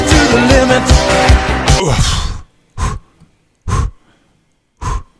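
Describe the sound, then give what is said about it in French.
Someone pants to catch their breath after running. A dense, noisy stretch gives way to three loud, separate breaths spaced about a second apart with silence between them. “faut que je reprenne mon souffle”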